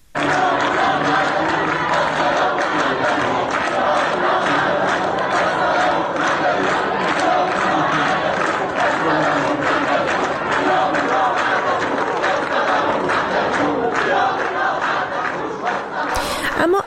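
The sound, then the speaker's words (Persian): University students chanting protest slogans during a sit-in on campus: a loud, continuous mass of crowd voices shouting in rhythm, sustained without a break for the whole stretch. “در محوطه این دانشگاه دست به تحسن زدن، شعارهای اعتراضی سر دادن در روز یکشنبه. با هم صدای دانشجویان دانشگاه آزاد عراق رو بشنویم.”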